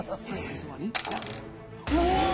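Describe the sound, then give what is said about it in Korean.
Dice thrown during a quiz game show: a brief clattering rattle over a loud, busy background. “계속해서 다음 문제를 풀려면 주사위를 던져 주세요. 이번엔 제가.”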